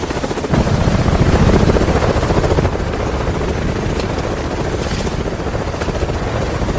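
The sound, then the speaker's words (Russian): A helicopter lands in a small forest clearing, its rotor making a loud, steady chopping roar with broad rushing noise that eases slightly partway through and then holds level. “Вертолет садится в лесу на небольшую поляну.”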